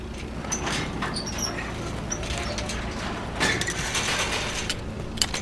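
A gate being locked gives a continuous metallic rattling and scraping of the mechanism, with a sharper click near the end.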